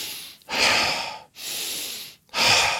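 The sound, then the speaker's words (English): Deep, deliberate breathing during a guided relaxation breathing exercise: three long, loud, airy breaths, each lasting nearly a second, separated by short silent pauses. “breathe in fully and exhale deeply. So you're gonna breathe in,”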